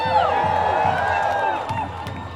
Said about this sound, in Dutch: Jean-Guy Macroy, Shishani, geef ze een applaus.